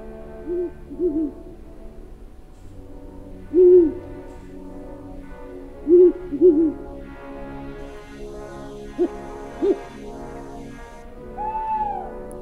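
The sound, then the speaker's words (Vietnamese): An owl hoots at night in a dark forest, giving several short, low hoots at irregular intervals, some in quick pairs, with a longer, slightly higher call at the end, all standing alone against a quiet background. “Thỉnh thoảng đâu đó vang lên những tiếng cú kêu đêm, nghe đến rùng rợn cả người.”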